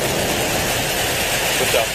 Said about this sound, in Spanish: El cohete Falcon 9 ha despegado con él minutos antes de las 9 de la noche.